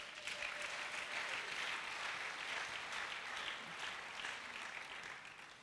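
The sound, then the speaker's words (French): A crowd at a church convention applauds the youth, a faint, steady wash of hand clapping that holds evenly throughout without a clear start or finish. “On acclame pour la jeunesse.”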